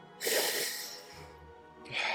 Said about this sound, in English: He takes a deep breath in through his nose.